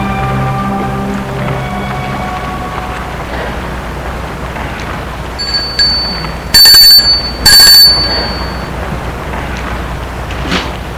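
A doorbell rings at a parents' home: two bright, loud metallic rings close together, rising out of a steady, hissing background noise with a few fainter chime tones around them.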